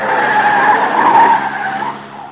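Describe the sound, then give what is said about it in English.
A car skidding through a handbrake turn, a loud sustained tire squeal with a wavering mid-pitched screech that fades slightly at the end, heard alone with no talk. “Hang on, corner on the handbrake makes things kind of sudden.”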